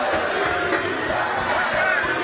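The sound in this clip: A large crowd of football fans massed around the team bus, with a flag waving, makes a dense, steady roar of many voices: a continuous, even wash of crowd noise without distinct peaks or breaks.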